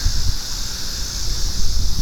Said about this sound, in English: It's a little bit windy.